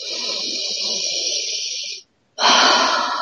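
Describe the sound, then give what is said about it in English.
Breathing, in through the nose and out through the mouth: one long, steady airy inhale, then a brief silence, then a stronger, louder breathy exhale. “It's okay to hear yourself breathe. Now in nose, out mouth.”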